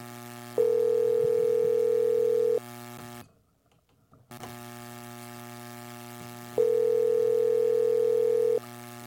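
Ringback tone of an outgoing phone call to a company manager going unanswered: two steady, low-pitched tone bursts, each about two seconds long, separated by a longer pause over a faint hum.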